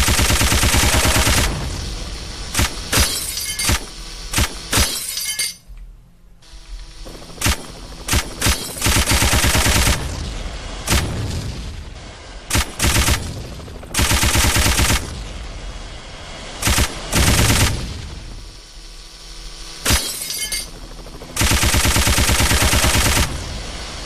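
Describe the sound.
Video game gunfire while shooting down enemies, loud rapid volleys bursting out many times with brief gaps between them.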